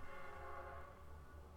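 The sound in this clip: A faint train horn sounds as one steady, sustained chord-like blast that lasts the whole moment over a low rumble, with no talk.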